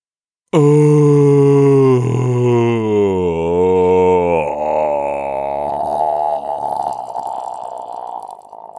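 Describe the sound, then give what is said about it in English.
A person groaning on purpose: one long, loud, drawn-out vocal groan whose pitch wavers up and down, then thins into a breathy, rougher sound as it fades toward the end. “That sounds more like a groan.”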